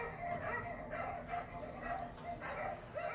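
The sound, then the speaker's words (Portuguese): Dogs barking and yipping in quick, repeated bursts, the high barks mixed with whimpering sounds and people talking throughout. “Nossa, os cachorros estão aqui, calma.”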